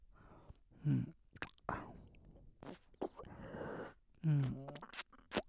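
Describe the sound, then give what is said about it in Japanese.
Wet kissing and biting mouth sounds on a neck, with soft smacks and clicks scattered through, joined by a couple of low voiced murmurs and breathy whispering, all close and quiet. “君の首にもかぶりついていい？ねえ、いいでしょ？ほら、首にもキスするから。”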